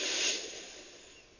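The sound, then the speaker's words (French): Slow, calm inhale through the nose during a guided breathing exercise, a soft airy hiss that peaks near the start and then fades gradually over about a second and a half. “Une dernière fois, j'inspire tranquillement par le nez”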